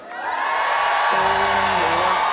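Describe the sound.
A concert crowd in Kraków cheers and whoops, a dense, loud roar that swells within the first moments and holds steady, with scattered shouted voices inside it.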